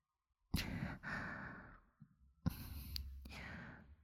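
Close breathing right at the microphone: two long, airy breaths like soft sighs, one after the other, with a short pause between them.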